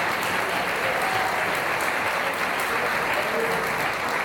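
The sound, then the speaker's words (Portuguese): A church audience applauding during a sermon, dense steady clapping that fills the whole clip at an even level. “Agora você pode aplaudir o Senhor.”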